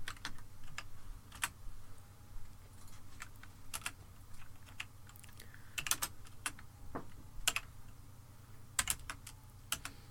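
Typing on a computer keyboard: many irregular keystrokes fall in uneven bursts and pauses across the stretch, some sharper and louder than others. A steady low hum sits underneath, with no talk.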